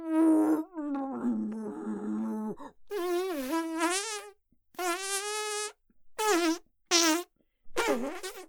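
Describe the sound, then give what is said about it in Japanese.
Several drawn-out, tonal farts during constipation, buzzing and wobbling in pitch. The first runs long and rough; later bursts come shorter and choppier, separated by brief silences. “便秘の時のおならってこんなに臭いの？”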